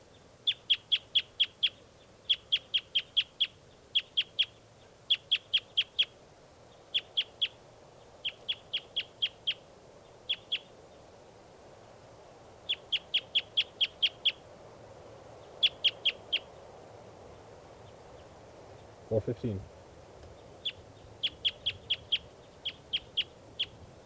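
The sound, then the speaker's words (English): A bird calls with many short, high chirps in quick clusters of several notes, separated by brief pauses, over a quiet background. “Bird calling. This is bird 415.”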